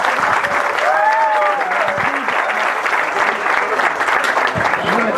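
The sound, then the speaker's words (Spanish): Applause from the audience at an outdoor Mass held at a peaceful resistance camp, a steady, dense wash of many hands clapping that holds at an even loudness throughout, with faint voices mixed into it. “Démosle un aplauso, ¿verdad?”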